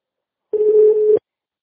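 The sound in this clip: Telephone dial tone before a phone call: a single steady mid-pitched tone that sounds alone for about two-thirds of a second, then stops abruptly.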